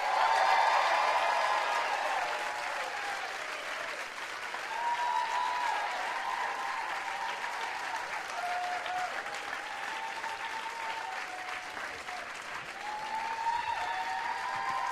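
Audience applause welcomes Dave Rawlings Machine on day two of the Newport Folk Festival, a dense and steady clapping crowd that holds at an even level from start to finish.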